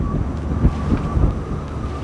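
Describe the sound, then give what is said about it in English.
Wind blowing across open rangeland of sagebrush and dust in Wyoming's Powder River Basin, heard as a steady, loud, low buffeting rumble with gusty swells and no voices. “Wyoming's Powder River Basin is a vast expanse of rolling range, a horizon of sagebrush and dust, sculpted by an unrelenting wind”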